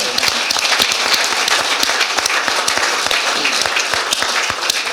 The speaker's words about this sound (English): so I think that deserves a round of applause, doesn't it?